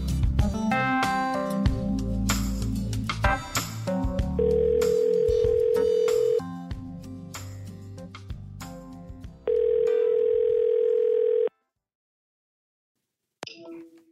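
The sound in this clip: Ringback tones of an outgoing telephone call being dialed: two long, steady single-pitch tones, each lasting about two seconds, with music playing before and between them, then silence and a brief faint sound at the end.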